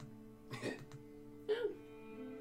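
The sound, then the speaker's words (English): A person coughs twice, with short, faint, throaty bursts about a second apart and a low hum underneath. “But you're coughing.”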